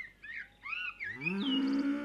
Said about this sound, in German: Friedlich grasen die Kühe im Sonnenlicht.